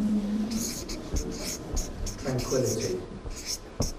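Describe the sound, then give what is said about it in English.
Pen scratching across paper in handwriting, made of short scratchy strokes in an uneven rhythm with brief pauses between words. It is fairly faint. “You may speak again, but not until I've finished writing the previous one.”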